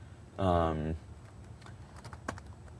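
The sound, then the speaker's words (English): Faint keystrokes on a computer keyboard as a command is typed into a command window. A few light clicks follow a brief voiced sound at the start. “if you go back to that command window and type pack”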